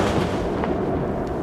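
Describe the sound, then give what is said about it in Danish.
Explosions from a late-night Israeli airstrike in southern Lebanon, captured in a radio news recording, make a dense, continuous rumbling roar with a few sharper bursts and no voices. “Sådan her lød det sent i aftes i det sydlige Libanon, hvor Israel har udført et omfattende luftangreb.”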